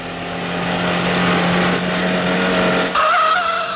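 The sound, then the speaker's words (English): An old car is driven fast, its engine roaring loudly and steadily throughout, with a high squealing whine rising near the end. “I don't mind how fast I drive this old heap. I'm a speed demon myself.”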